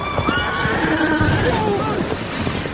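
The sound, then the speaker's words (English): A unicorn neighs in an audio drama, a loud, shrill, wavering whinny that stretches across the whole moment, with faint hoof clatter and voices mixed underneath. “Why are you pretending? You saw it. You saw the horn on its head. It was a unicorn.”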